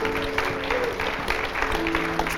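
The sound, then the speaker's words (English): A church audience applauds to welcome a pastor during a morning service, with steady, moderately loud clapping throughout and faint sustained tones underneath. “Let's give him a hand this morning.”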